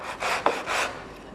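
Hand sanding of wood, two rough rasping strokes with a brief sharp click between them, moderately loud and with no voices.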